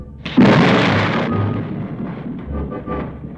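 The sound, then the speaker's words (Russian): Thunder with hail and rain: a sudden loud crack breaks into a long rolling rumble that gradually fades, with a rough, steady hiss of falling rain and hail beneath it. “Тогда Бог послал на Египет огонь и град с дождем.”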